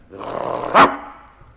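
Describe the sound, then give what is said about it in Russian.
A bulldog on duty, just woken from sleep, gives one loud, gruff bark that rises out of a brief low rumble and then fades quickly. “С просонок дежурный бульдог рявкнул так, что под лисой со страха оказалась лужа.”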